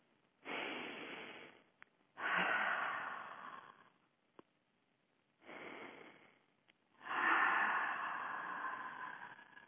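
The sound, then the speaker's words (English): Slow deep breaths taken during a guided relaxation: four long, soft, airy breath sounds in two pairs, the second of each pair longer and louder, with quiet gaps between them. “So we need to take a couple of breaths and clear ourselves from that matted, tangled number of words. Take a few deep breaths.”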